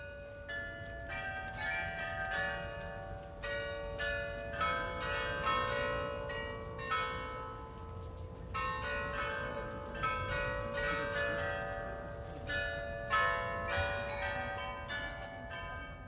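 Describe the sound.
High carillon bells ring out from the new town hall in Freiburg: a long run of many overlapping, tonal strikes with sustained ringing between them, steady and fairly loud, with no voices.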